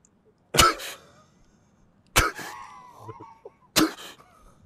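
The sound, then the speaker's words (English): A voice imitates a fighter pilot's straining breath during an anti-G maneuver: three sharp, forceful, cough-like exhalation bursts, each trailing into a strained grunt, separated by quiet gaps. “you're breathing, you're doing this thing called a Hick maneuver, and you're literally, it literally feels like this”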